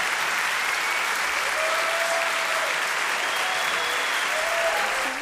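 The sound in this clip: After a live song performance, an audience gives loud, even applause that stays dense and unbroken from start to finish, with no clear gaps between claps.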